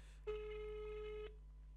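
An outgoing phone call ringing unanswered: a single steady ringback tone at one pitch, lasting about a second, faint and alone, followed by quiet.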